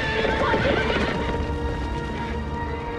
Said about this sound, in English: She opens the doors, then runs back to the horses.